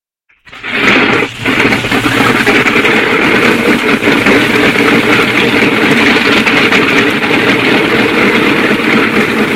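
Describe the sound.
A propeller aircraft engine starts up, catching abruptly and settling into a loud, steady, rough drone with a brief dip early on. No voices are heard over it.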